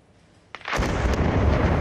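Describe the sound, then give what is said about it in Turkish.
Explosives planted inside a Palestinian house in Beitillu, in the West Bank northwest of Jerusalem, detonate. Near-silence gives way to a sharp crack, then a loud, sustained rumbling roar that lasts to the end. “Patlayıcı yerleştirilen ev dakikalar içinde yerle bir oldu. Görüntüler Kudüs'ün kuzeybatısından. İsrail askerleri Bitlu beldesinde bir Filistinlinin evini havaya uçurdu.”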